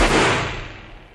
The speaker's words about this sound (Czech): Ano, přesně o půlnoci skutečně padnul výstřel z revolveru a hrabě Moritz se bezvládně zroutil na stůl.